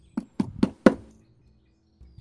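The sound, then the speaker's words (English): Four evenly spaced knocks on a door in quick succession, sharp and fairly loud, followed by quiet and a faint sound at the end. “As you are making this transaction, there is an individual who knocks at the door behind you.”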